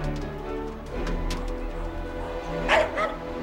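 Dogs barking as they jump free from opened cages, a Jack Russell terrier among them, with a few sharp barks rising out of a low steady hum, the loudest near the end.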